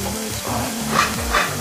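Meat frying in a pan while it is stirred, giving a steady crackling sizzle with a few scraping stirs mixed in.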